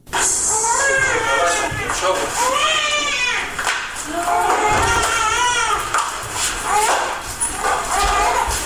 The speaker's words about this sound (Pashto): د هرات په حوزوی روختون کې د خوارځواکو ماشومانو د درملنې مرکز. دغه ماشومان د ناسم خوراک له امله دلته د روختون په کټ پراته دي.